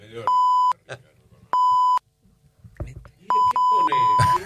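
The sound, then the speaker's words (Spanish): Radio time signal marking 1:30 p.m.: a steady, pure, mid-pitched beep sounds twice briefly, then once longer, each loud and clean, with voices talking in the gaps and over the final tone. “Muy bien, va a sonar el top de la 1:30 p.m. y va a llegar el señor Ricardo Rodríguez con las noticias.”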